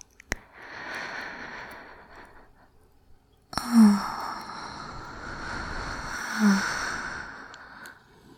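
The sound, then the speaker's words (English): Slow, deep breathing during a guided relaxation exercise: long, airy breaths of soft noise with a sharp onset midway and two brief, low sighing swells, heard alone without talk. “I'm gonna breathe, and I just want you to breathe with me.”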